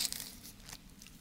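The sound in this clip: Bible pages flipping toward Revelation chapter 19: a quick, faint papery rustle with a few crinkling flicks, loudest at the start.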